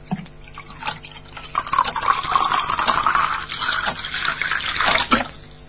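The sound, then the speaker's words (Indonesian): Water is poured into a drinking glass in a kitchen: a steady, continuous splashing pour that lasts about five seconds, with no talk. “Kutuangkan air pada gelas yang sudah disiapkan.”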